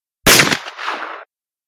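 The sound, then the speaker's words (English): A pistol shot rings out as a sharp, loud crack with a short, rough decaying tail, used as a single sound effect. “He had raised his rifle to fire when Bob's pistol shot came from the house.”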